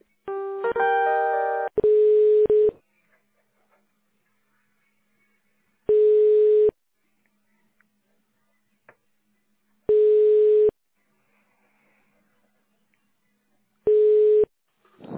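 Telephone tones during a call transfer: a short jingle of stepped electronic notes, then a steady ringback buzz repeating four times, roughly four seconds apart, with silence between each tone.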